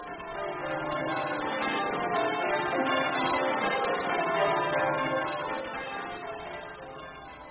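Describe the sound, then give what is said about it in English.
Church bells ring continuously in a dense, loud wash of overlapping metallic tones that hold steady for about seven seconds, with no voices. “oh, it's a dreadful bell, be silent”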